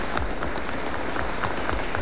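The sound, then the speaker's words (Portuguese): Church audience applauding in honor of the fathers: a dense, steady patter of many hands clapping together, even in loudness throughout with no pauses. “Uma salva de palmas aos nossos pais.”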